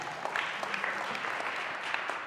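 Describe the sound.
Audience applause welcomes a person onto a stage: steady, dense clapping from many hands, holding an even level throughout with no voices over it.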